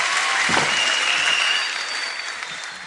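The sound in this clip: An audience claps and cheers for a band at an outdoor sunset stage during a rock concert: dense, steady applause that eases slightly in loudness partway through, with crowd noise mixed in.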